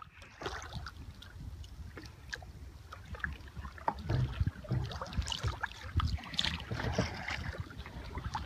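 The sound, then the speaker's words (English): A double-person kayak paddling through a bay in Alaska's glacier country near Juneau: many soft, rhythmic paddle strokes splash and swish through the water at a quiet, steady pace. “It's the sound of a double-person kayak paddling through one of the many bays in the area.”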